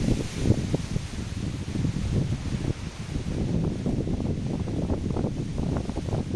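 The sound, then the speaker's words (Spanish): Strong wind, with gusts earlier topping 103 km/h, blows at Muras in the Serra do Xistral, Lugo. It sounds as a continuous low rumbling buffet with irregular gusty surges and no voices. “de viento que llegaron a velocidades superiores a los 103 kilómetros por hora la pasada madrugada en la Serra do Xistral, en Muras. Allí, así soplaba el viento, hace tan solo un momento, aquí en Lugo.”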